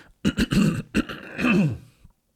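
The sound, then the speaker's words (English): Someone clears their throat in several harsh, rasping bursts of uneven length, fairly quiet and alone, with a short pause partway through. “A normal person that cared about his work would have edited out that throat clear.”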